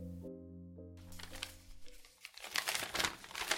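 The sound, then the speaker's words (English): A piece of paper rustles and crinkles, building into steady, uneven scratchy crackling as a held musical tone fades out at the start. “Hold on 1 second, I've got to get this piece of paper. Something I want. That's the sound of a piece of paper being rustled.”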